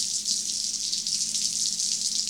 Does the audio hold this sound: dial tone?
no